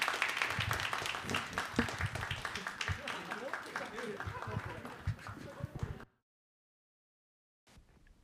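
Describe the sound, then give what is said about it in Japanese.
Audience applause at a stage event, lively clapping mixed with voices that runs for about six seconds and then cuts off abruptly into silence, followed by a brief faint sound near the end. “皆さんありがとうございます、さらに大きな拍手を”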